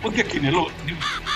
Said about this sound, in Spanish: Usted sabe que me compré un cuervo. Estará por aquí. ¿Dónde estás? Estará por aquí el cuervo.